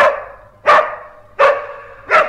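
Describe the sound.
A dog barks three times at a steady, even rhythm. Each bark is loud and sharp, then trails off, and no voices are heard.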